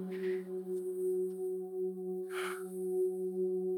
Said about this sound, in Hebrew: כמה נשימות ככה עמוקות. ועם הנשימה אני כבר מקיימת את חוק הכסף הראשון שהוא חוק הזרימה.